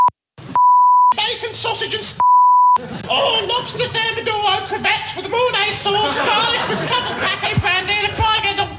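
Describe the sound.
Two steady mid-pitched censor bleeps, each about half a second long, cut into speech, followed by continuous overlapping talking.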